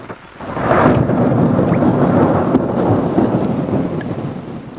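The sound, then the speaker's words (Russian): Rain with thunder in Paris: a steady, dense wash of rainfall noise and deep low rumbling that holds at an even loudness throughout, with no voices. “Дождик. В Париже часто дожди.”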